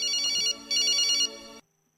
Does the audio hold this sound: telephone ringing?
yes